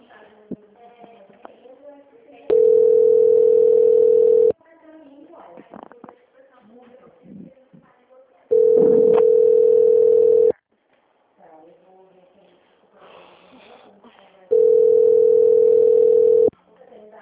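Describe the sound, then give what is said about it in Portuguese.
Telephone tones play while a call is transferred to a Santander department: three long, steady beeps of about two seconds each, evenly spaced, with quieter sounds filling the gaps between them. “agradeço a atenção e irei transferir para o setor de autoria do Santander. Peço que aguarde ser atendido e não encerre o contato antes da orientação do atendente a seguir, ok? Tudo bem. Transferência.”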